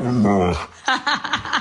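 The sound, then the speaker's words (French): A dog makes talk-like vocal sounds, as if speaking Italian. A short human voice comes first, then a quick run of several brief, yowling bursts, each dropping in pitch, at moderate loudness. “c'est là l'occasion idéale de vous repasser un extrait du chien qui parle italien.”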